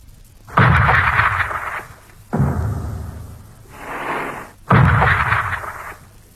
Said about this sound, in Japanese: 私は大地を揺り動かすような艦砲射撃の音で目を覚ましました。